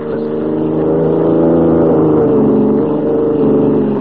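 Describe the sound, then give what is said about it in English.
A car engine drones steadily as the vehicle drives along a road, a loud, even hum of layered tones holding throughout without pauses. “White and Lois, who are driving alone to see the governor in the state capital 140 miles away”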